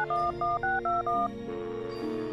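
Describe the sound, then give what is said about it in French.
Telephone keypad dialing tones as a call is placed: five quick, clear electronic beeps in a steady rhythm, followed by a quieter sustained tone. “Attends deux secondes, j'appelle LTR.”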